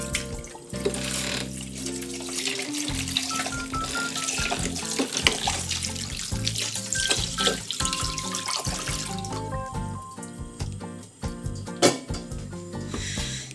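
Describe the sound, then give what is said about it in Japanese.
Running tap water pours steadily as cucumbers and myoga are washed at a kitchen sink. The splashing and rubbing continue without a break, and no one speaks. “じゃきゅうりとみょうが洗いましょうね”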